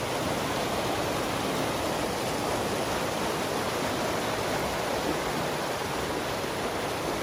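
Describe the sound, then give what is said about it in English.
A waterfall spilling down to a small beach beside a woodland path, giving a steady, even rush of falling water without breaks, fairly quiet, with no voices. “this beautiful waterfall. Well, waterfall. It is kind of waterfall. It goes down and there is a slight beach down there.”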